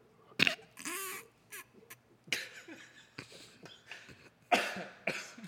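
Coughing fit from a man choking on popcorn kernels: several harsh, rasping coughs in uneven bursts, with short gasping breaths between them and no talk.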